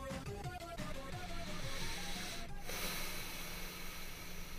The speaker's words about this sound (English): What was that? It's my breath.